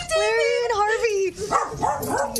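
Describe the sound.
A dog gives excited yipping barks and whines during a playful scuffle with another dog, in rapid bursts of high, wavering tones.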